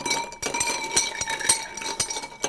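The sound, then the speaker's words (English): Ice clinks against glass as a drink with a drop of Angostura bitters is stirred, a quick run of bright, light taps repeating in a steady rhythm throughout. “Would you mind terribly if I add a tiny bit of Angostura bitters? Is there alcohol in it? There's a small amount, but I'm adding a drop. Tiny. A drop. It's so minuscule, you won't notice it. So we're going to give that a stir.”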